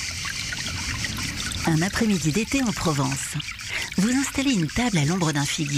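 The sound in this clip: Water trickles from a fountain on a summer afternoon in Provence, a steady soft burble running under a voice that talks throughout.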